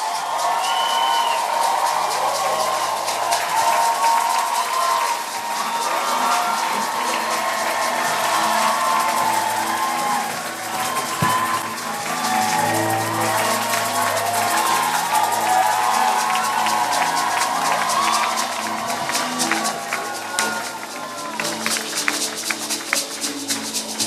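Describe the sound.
A church audience applauds and cheers to welcome an apostle to the pulpit. The dense, steady clapping mixes with whoops and shouts and keeps going at full strength without a break.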